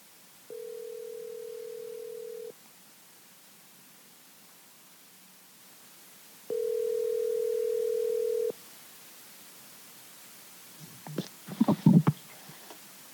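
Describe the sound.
Telephone ringing tones while a call is placed: two steady, low buzzing tones, each about two seconds long and separated by a long quiet gap, then a brief burst of clicks and rustles as the line connects.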